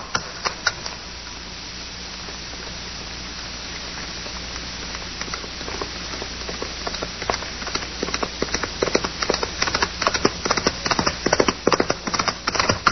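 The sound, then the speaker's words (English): A horse gallops with a rider aboard, its rapid, steady hoofbeats growing louder toward the end as it approaches, sounding alone without voices. “Cowboy. Yeah. He's riding pretty hard. Ride like man afraid.”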